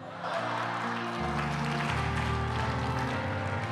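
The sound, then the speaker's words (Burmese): A crowd applauds with a continuous wash of clapping. A low sustained tone runs underneath and steps down in pitch twice. “လက်ခုပ်တီးပြန်ပြီ”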